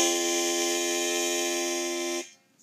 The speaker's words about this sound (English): And if I were to have like a really narrow embouchure, like most beginners would do, then it would sound like this.